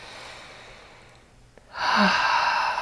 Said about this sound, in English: Okay, let's relax our shoulders here. Let's take a nice deep breath.